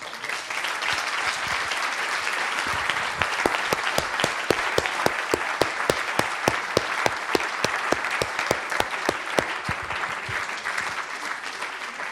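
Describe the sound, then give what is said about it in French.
Sustained applause from a seminar audience for the speakers: dense, steady clapping that holds an even level for about twelve seconds with no voices on top. “je vous invite à applaudir nos intervenants.”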